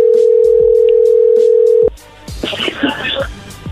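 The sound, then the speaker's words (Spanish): A telephone call line connecting: a loud, steady tone holds, then cuts off abruptly partway through. A muffled, noisy voice-like sound on the line follows. “entró ahí la llamada.”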